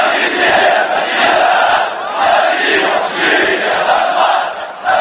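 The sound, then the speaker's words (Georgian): Football fans of Dynamo Kyiv chant ironic shouts as a crowd, a dense, loud roar of many voices that holds steady throughout with gentle swells. “კიევის გულშემატკივართა შეძახილებით დასრულდა სიუჟეტი”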